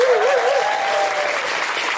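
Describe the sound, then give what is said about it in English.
Loud audience applause at a live show in a theatre, dense and sustained clapping throughout, with a voice briefly audible over it at the start. “A big round of applause for everyone today who came and communed with us here in the audience and was here at a live Guilty Feminist event.”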